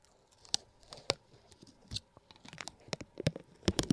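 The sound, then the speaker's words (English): Protective plastic film is peeled off a button, giving faint, irregular crackling clicks and small snaps scattered throughout, with no talking. “Andrew forgot to take the plastic off this button. Like the film. Get ready for the sound.”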